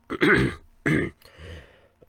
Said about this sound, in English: just clearing my throat there